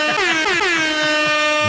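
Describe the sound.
A loud air horn sound effect blares in one sustained blast with a rapid, rhythmic pulsing wobble throughout.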